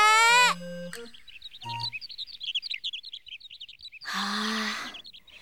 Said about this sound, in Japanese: 空には小鳥、花には蝶。